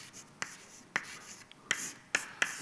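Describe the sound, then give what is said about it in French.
Writing on a board, a handful of short scratchy strokes and taps spaced unevenly, faint and alone. “Alors, je ne connais pas ça par cœur, mais je vais vous l'écrire.”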